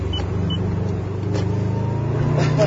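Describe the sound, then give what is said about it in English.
Engine of an all-wheel drive car accelerating, a steady low rumble that holds at an even, fairly loud level throughout. “See, my tires don't squeal because yeah. it's all-wheel drive. I actually go somewhere when I step on it.”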